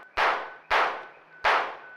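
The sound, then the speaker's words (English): Gunshots fired by a police officer: three sharp, loud bangs, each cracking out and then trailing off in a decaying tail before the next, spaced less than a second apart. “He's out of bullets, I think. That thing didn't even... It absorbed the bullets.”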